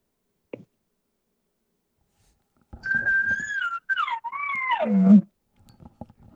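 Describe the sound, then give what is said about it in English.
A bedded bull elk gives a soft bugle: one whistling call that wavers high, then slides downward and ends in a low grunt, alone against near silence. “If you're within a bedded bull, it's gonna sound something like this.”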